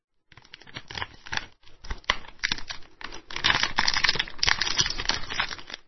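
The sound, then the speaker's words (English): Crinkling foil or paper as a chocolate bar is slowly unwrapped, with soft tearing and rustling bursts that start quietly and grow denser and louder toward the end. “Ridwan sat down in the wheelbarrow and took the chocolate out of his pocket. He unwrapped the chocolate slowly”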